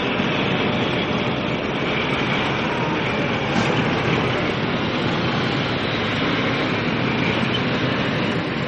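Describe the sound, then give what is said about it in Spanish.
Steady low rumble of a World War II-era military vehicle in a convoy driving slowly along a road, a continuous even drone with no breaks. “El carro, que es parte de un convoy, recorre lentamente una carretera cuyos arcenes están atestados de antiguos prisioneros en marcha.”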